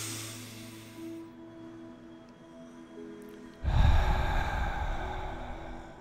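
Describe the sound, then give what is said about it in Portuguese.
A person takes a slow, deep, exaggerated breath as a calming exercise: a long, soft inhale, a quiet pause, then a forceful, drawn-out exhale that is much louder and lasts a few seconds. “Esse processo de puxar o ar isso, eu fiquei até mais calmo agora dando essa puxada de ar aqui.”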